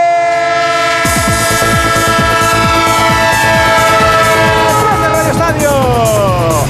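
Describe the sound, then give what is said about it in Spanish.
A train sound effect with horn: long sustained horn tones over rapid, rhythmic wheel clatter that begins about a second in, loud and steady throughout, with the horn pitch sliding downward near the end. “El tren del Radio Estadio, también de la Brújula, sí señor”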